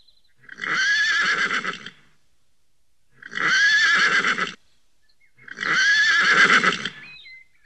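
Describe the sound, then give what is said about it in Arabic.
Three loud horse whinnies, each lasting over a second and shaking with a high, quavering tone, separated by short pauses of quiet. “حسنا، اهدأ يا حصان الجميل وخذ قطعة من السكر.”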